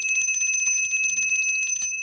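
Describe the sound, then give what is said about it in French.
A small hand bell rings nonstop in a rapid, steady, bright metallic trill. It stays loud and even for the whole stretch, with no voices. “Maudite clochette.”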